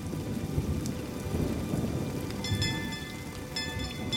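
A thunderstorm with a steady, dense hiss of heavy rain and low rumbling thunder beneath it, continuous throughout with no voices.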